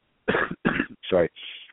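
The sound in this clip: Throat clearing by someone a little under the weather: four rough, raspy bursts in quick succession, the last one softer and thinner than the others.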